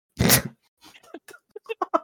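One loud, crisp crunch from biting into food on an ASMR stream, followed by quieter, scattered small sounds.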